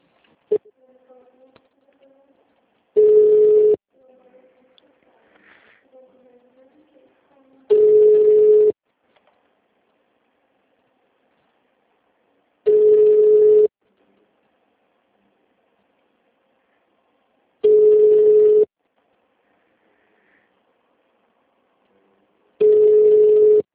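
Telephone line tones during a call transfer: five long, steady beeps at even intervals over near silence, with faint softer sounds between the first few.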